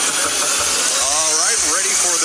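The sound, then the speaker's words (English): Stock car race engines roar to life at the start of a race at Homestead, a loud, dense, continuous rumble and hiss, with a voice briefly rising over it. “Drivers, start your engines. Crank them up, hey, crank them up.”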